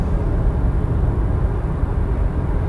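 Steady low rumble of a car driving, heard from inside the cabin, a continuous engine and road drone with no talk over it.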